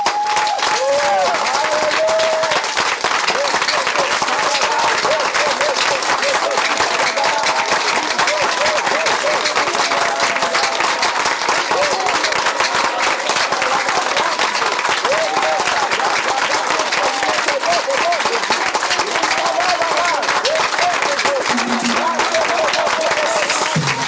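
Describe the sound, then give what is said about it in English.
A church audience clapping for the Lord: loud, continuous, dense applause lasting over twenty seconds, with voices calling out over the clapping throughout. “We're going to clap unto the Lord. Amen. Give a clap of”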